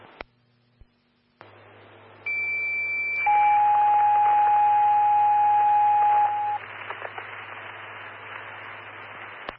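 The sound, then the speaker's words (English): Fire station dispatch alert tones for a medic sick-party call: a short higher steady tone gives way to a longer, lower sustained tone lasting a few seconds, both loud over constant radio static hiss. “stand by for tones on the sick party.”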